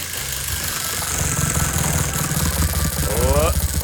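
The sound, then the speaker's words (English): A prize wheel spins during a game for a family pass, giving a steady, rapid ticking rattle that holds an even pace and grows slightly louder toward the end. “Spin that wheel.”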